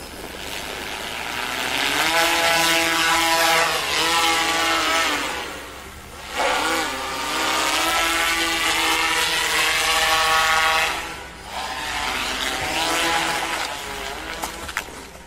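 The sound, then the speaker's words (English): A Dubai police HoverSurf hover bike drones with a loud, buzzing propeller whine whose pitch wavers up and down, dipping briefly twice before surging again, with a few small knocks near the end. “Dubai police bought hover bikes, and this crash video shows it's not going well.”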